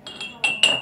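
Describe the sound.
Glass clinking while genever is poured for a grapefruit cocktail: four short, bright, ringing clinks, the last two louder than the first pair.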